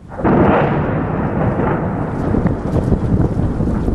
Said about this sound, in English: On Wednesday, the Syrian military and its allies released this footage of bombing in eastern Aleppo.